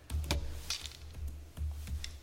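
Sparse typing on a computer keyboard: a handful of irregular light clicks, each paired with a soft low thump, with short gaps between keystrokes.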